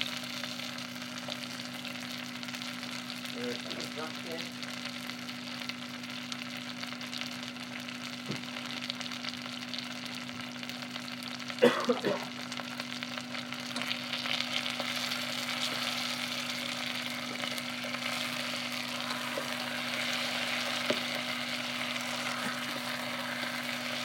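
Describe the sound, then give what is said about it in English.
Onions sizzle in butter in a hot pan, a steady crackling hiss that goes on throughout, broken by occasional scraping stirs. One louder stir comes near the middle, over a faint constant hum. “Throw them in, and then we'll give it another good stir. Take the onions off burning.”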